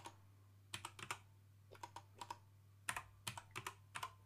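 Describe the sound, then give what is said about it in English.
Someone types on a computer keyboard in quiet, uneven bursts of light clicking keystrokes, with short pauses between runs and a steady low hum underneath. “Would help if I could type correctly.”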